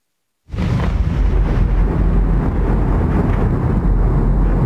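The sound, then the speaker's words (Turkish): Explosions from missile strikes on Kyiv form a deep, loud, continuous rumble. It starts abruptly after a brief silence and rolls on steadily with no clear separate blasts. “Rus ordusu Kiev'i vurdu, patlama sesleri peş peşe yükseldi.”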